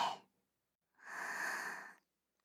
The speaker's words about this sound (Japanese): ゆっくり吸って、